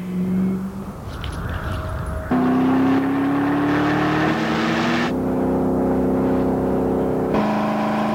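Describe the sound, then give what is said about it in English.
A Ford GT sports car engine revs hard while accelerating through the gears: a loud, continuous roar whose pitch climbs steadily within each gear and steps abruptly at a few gear changes. “In what gear do you know it's the one? Introducing the Ford GT.”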